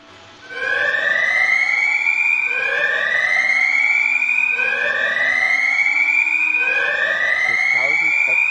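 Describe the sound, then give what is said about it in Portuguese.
A power plant alarm wails in four loud, repeated rising sweeps, each climbing in pitch before starting over, steady and insistent throughout. “Pois é, agora tocou um alarme. Da, da usina agora.”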